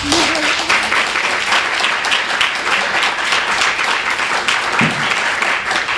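An audience applauds to welcome an author to a book reading, loud, dense clapping from many people that continues steadily throughout.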